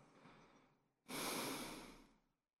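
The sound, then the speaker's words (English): Gentle breathing through the nose during a relaxation exercise: a soft, airy breath followed by a longer, louder one that slowly fades, with no voices. “You'll feel a little more balanced with the nose breathing.”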